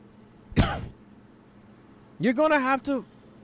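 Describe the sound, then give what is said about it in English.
Throat clearing, as if something is stuck in the throat: one harsh rasping clear, then after a pause a short voiced groan. “Something is stuck in my throat.”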